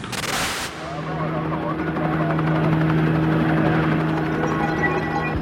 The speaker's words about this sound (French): Dans le ciel de Los Angeles, les hélicoptères des différentes chaînes de télé survolent la ville à la recherche de la Ford Bronco blanche